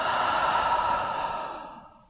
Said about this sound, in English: Let's take a deep breath in, out through the mouth.